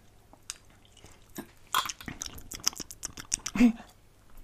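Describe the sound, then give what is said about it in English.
Wet slurping and chewing mouth sounds as someone tastes hot chocolate topped with a melting piece of white chocolate; faint clicks and squelches come in an irregular run, growing louder toward the end, with no talk. “What I'm going to do is I'm going to put my little piece of white chocolate on the hot chocolate. I'm going to see what it tastes like.”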